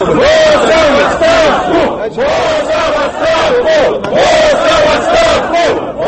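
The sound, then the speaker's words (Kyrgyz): Protesters at a rally in Kaliningrad shout for Putin and governor Boos to resign. Many voices chant a short slogan together in a steady, repeating rhythm, with brief pauses between loud phrases. “Бул Путин жана Боос кызматтан кетишин талап кылган дагы бир кыйкырыктар.”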